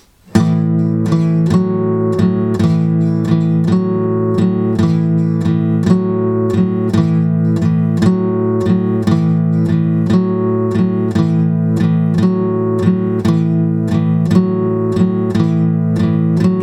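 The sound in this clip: Guitar strumming four bars of an A-chord pattern that alternates between the second and fourth frets, many even strums in a steady, loping rhythm at constant loudness.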